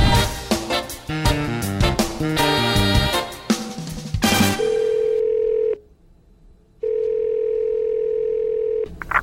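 A telephone call signal: a rapid run of varied beeping dial tones, then two long, steady ringing tones of the same pitch separated by a gap of silence.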